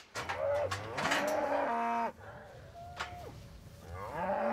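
Mother cows moo for their calves on an island farm, giving a few long, loud lowing calls that waver in pitch, with quiet gaps between them and no voices.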